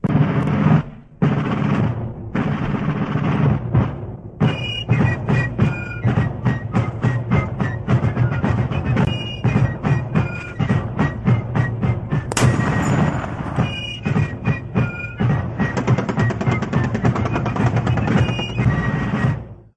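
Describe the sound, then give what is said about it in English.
A rapid-fire gun sound effect rattles off in long, dense volleys of sharp, hard cracks, many shots in quick succession over a steady rumbling bed, with only brief pauses. “Rapid fire gun firing off.”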